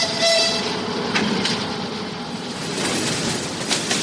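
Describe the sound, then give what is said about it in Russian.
An electric commuter train pulls in at a crowded station platform, giving a steady, moderately loud rumble and hiss of rolling wheels and motors that swells slightly and persists throughout. “Подошла электричка, забитая дачниками и вещами.”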